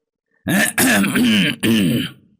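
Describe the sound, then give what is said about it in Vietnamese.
Throat clearing from a person standing behind, heard at night outside a building within a military unit, in three rough, voiced bursts in close succession, loud and alone with no other talk. “Nhưng lại nghe thấy tiếng hắng giọng từ đằng sau.”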